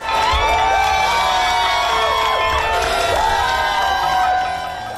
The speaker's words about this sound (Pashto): اخوا په امریکا کې د اعلان ته خلکو په خوښیو هرکلی کړی.